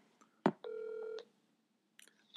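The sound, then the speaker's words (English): Telephone dialing as a call is placed: a sharp click, then a steady electronic dial tone held for about half a second, followed by a few short, faint blips. “I'm going to dial him 1 second. Let's see if he picks up real quick.”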